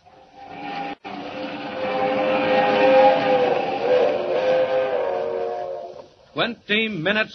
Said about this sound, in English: Roaring up the Rockies to the crossing at San Joaquin, the crack streamliner of the West Coast Railroad rushes through the dark at 80 miles an hour